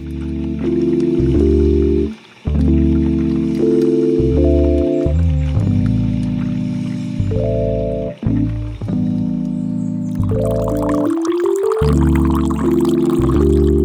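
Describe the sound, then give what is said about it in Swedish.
A short coffee jingle plays with clear, bouncy synth notes, and the splash of liquid being poured rushes in near the end before the tune closes. “det var en trevlig kaffejingel”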